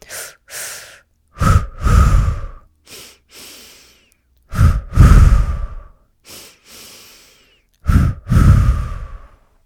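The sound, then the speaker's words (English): Breathwork breathing: each round is two quick, forceful inhales through the nose followed by two longer, louder, breathy exhales through the mouth. The pattern repeats for several even rounds, with no talk. “it's going to be two deep inhales in through the nose with two exhales out through the mouth. It's going to sound like this.”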